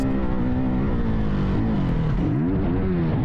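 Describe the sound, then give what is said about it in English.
A dirt bike engine in a 21-year-old rider's crash video drones loudly and continuously, its pitch wavering up and down throughout. “Video of this crash, you two will realize just how miraculous that is. Jeez, this is video caught by a 21-year-old dirt bike rider.”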